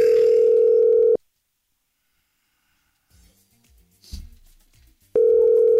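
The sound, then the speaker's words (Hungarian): Telephone line tone while calling a radio listener: a steady low tone holds for about a second, then near silence with faint rustling noises, before the same tone returns. “Na, hívjuk a naphallgatóján gyorsan.”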